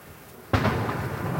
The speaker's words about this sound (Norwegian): I det kanonskuddene drønner, og gravfølget begynner sin sakte marsj nedover mot Karl Johan, skjer det noe.